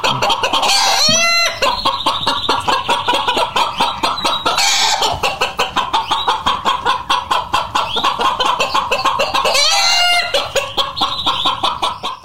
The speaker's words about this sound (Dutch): Welk dier hoorden wij hier? Ja, de kip.